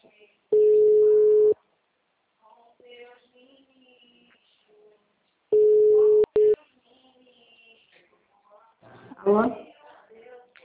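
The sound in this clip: Telephone ringback on an outgoing call: two steady, mid-pitched tones of about one second each, roughly five seconds apart. Quiet speech fills the gaps.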